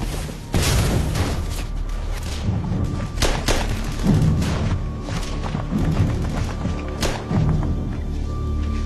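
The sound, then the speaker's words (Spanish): Explosions from a World War II combat scene during the defence of the Rhine, including a grenade bursting and spraying tin shrapnel. Several heavy booms and sharp cracks punch out of a continuous low rumble, with no voices. “La granada explota lanzando afilada metralla de estaño que corta al teniente coronel.”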